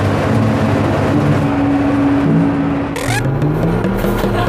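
A manual car's engine revs as a learner driver tries to pull away, a loud, steady droning growl with a tonal whine that holds, dips briefly and then climbs again.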